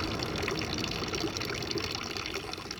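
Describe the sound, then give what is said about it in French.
A public drinking water fountain beside the town hall in Clermont-Ferrand trickles and gushes in a steady, continuous flow of water. The sound is even and unbroken, with no voices. “C'est la fontaine d'eau potable à côté de la mairie de Clermont-Ferrand.”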